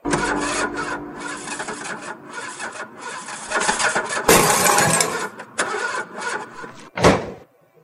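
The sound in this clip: An old, run-down car's engine cranking with harsh, rasping, grinding bursts, building to a louder surge midway and ending with a short, sharp burst.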